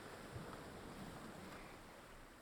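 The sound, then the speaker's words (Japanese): Ocean waves wash steadily onto a beach at dawn, a faint, continuous surf rush with a soft wind rumble beneath it. “さあ、あちらへ。黎明の海、その渚にて戯れを。”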